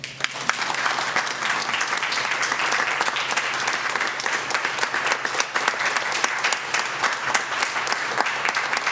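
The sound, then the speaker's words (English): An audience at a human rights awards breakfast applauds an award winner, producing a thick, continuous wash of clapping with a few sharper individual claps standing out, steady in loudness from start to finish. “This world in our community is a better place with Francine in it. Please let us congratulate Francine.”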